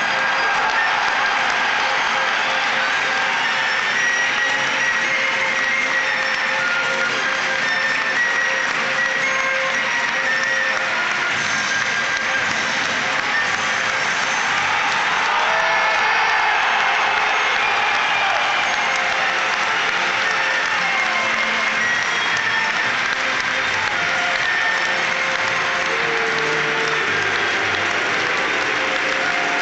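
Stadium crowd at an Everton home football match roaring and applauding as the teams come out, a loud, unbroken mass of cheering and clapping that holds steady throughout.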